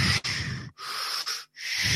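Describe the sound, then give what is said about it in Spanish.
A voice imitates an artificial respirator machine, making a few rhythmic, breathy hissing pushes of air separated by short silent gaps, fairly loud and with no words. “respiradores artificiales. Una máquina que hace...”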